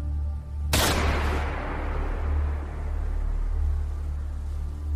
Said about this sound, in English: The shot seemed incredibly loud, like it had shaken the ground beneath their feet.